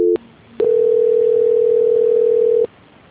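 Telephone line tone during a call transfer: a brief tone, a click, a fainter lower tone, then another click and a loud, steady single-pitched tone lasting about two seconds before a final click cuts it off.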